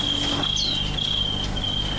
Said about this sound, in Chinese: 现在习惯以后啊，尤其到那个8月份，没有蛐蛐根本睡不着觉。